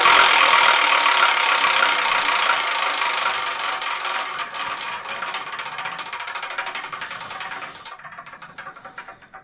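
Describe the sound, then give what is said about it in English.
Rapid ticking of a spun prize wheel: a dense rattle of clicks that gradually slows and fades over several seconds before stopping near the end. “Just gotta pull the Wheel of Manga over here because it's on the thing. But anyway, let's spin.”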